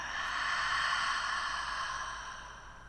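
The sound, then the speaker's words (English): A deep breath is drawn in and let out, soft and airy, swelling gently and then fading away. “let's take a nice deep breath in and out.”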